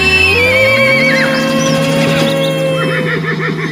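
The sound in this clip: A horse neighing: a shrill, wavering whinny that falls in pitch. It plays over a loud music track with sustained tones and continues alongside the music throughout.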